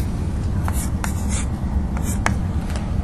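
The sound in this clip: A marker draws on a board in a different color, making several brief squeaky strokes over a steady low background hum.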